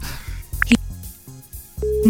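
Telephone call tones as a call is placed: brief high electronic beeps, then a steady, loud, lower tone that starts near the end, with other tonal sounds running underneath.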